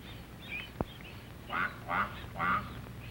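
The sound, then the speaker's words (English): A mother duck calls to her ducklings with three faint, nasal quacks in quick succession, evenly spaced. A single sharp click comes shortly before them against a quiet, hissy background. “This duckling will get lost, but he hears his mother call and runs to catch up with her.”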